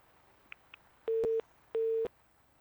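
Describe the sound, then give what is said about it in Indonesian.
Busy tone from a phone call that has just been cut off: two steady, mid-pitched beeps of equal length with a short gap between them, preceded by two faint clicks, with no talk. “Wah, nampaknya terputus panggilannya”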